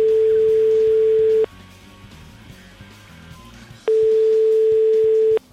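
Two long, steady ringback tones of an outgoing telephone call, each about one and a half seconds, separated by a pause of roughly two and a half seconds with faint low background sound between them.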